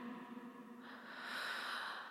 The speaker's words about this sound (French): Inspire à plein poumon.